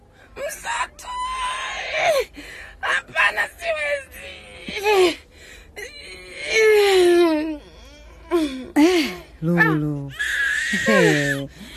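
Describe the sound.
A newborn baby girl crying just after birth, with repeated high, wavering wails in short bursts and adult voices talking between the cries.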